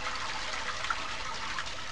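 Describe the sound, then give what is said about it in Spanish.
Water rushing steadily, most likely a toilet flushing, as a continuous hissing wash of moderate loudness that holds evenly for the whole stretch without voices. “Sonido agua.”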